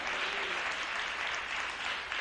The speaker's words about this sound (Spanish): Dele un aplauso al Rey, ya que se lo está dando. Déselo al Señor con todo el corazón.